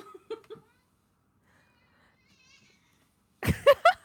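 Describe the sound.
A pet cat meows in short, faint calls early on, then louder, more drawn-out meows come at the end after a stretch of near silence.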